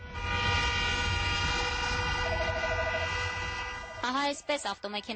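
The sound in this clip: Car horns blare in a long, steady chorus to celebrate a wedding in Yerevan. The honking ends and a voice starts talking near the close.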